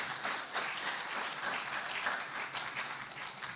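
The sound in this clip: Audience applause welcoming guests onto the stage at a ministry gathering, a dense, steady patter of many hands clapping at an even level throughout.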